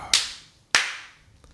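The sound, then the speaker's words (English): Two sharp hand claps made to sync recorded audio, each a crisp snap with a short decay, roughly 0.6 seconds apart and with no voices. “This clap is merely for the only audio portion of this podcast.”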